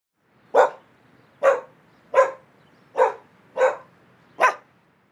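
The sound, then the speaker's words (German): A dog barks at a garden fence: six short, sharp barks spaced evenly about a second apart, each one loud and clear against near silence. “Andere bellen am Gartenzaun, weil sie das Haus beschützen und jemanden vertreiben wollen.”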